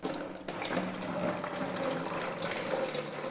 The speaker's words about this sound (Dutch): gaan we het mengsel eigenlijk in de brouwemmer doen. Het mengsel erin.